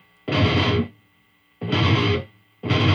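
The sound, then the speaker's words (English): Fast electric guitar riff played cleanly through heavy distortion, a repeated figure of two sixteenth notes and an eighth note. It comes in three loud, dense bursts separated by short silences. “But it's very fast, and it's coming out very clean, even though you're using a ton of distortion, which makes notes harder to articulate.”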